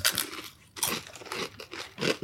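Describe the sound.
A crunchy snack bitten and chewed: dry, loud crunches come in quick irregular bursts, with a brief pause early on and no talking.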